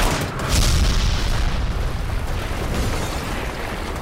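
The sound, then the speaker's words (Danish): A blast of 3.5 kilograms of dynamite blows a tree apart in a broad, rumbling roar. The roar surges loudly about half a second in, then holds a dense, noisy rush of sound for several seconds without fading away. “Den her lyd var sjovt nok fra samme træ, og var lyden af 3,5 kilo dynamit, der eksploderede.”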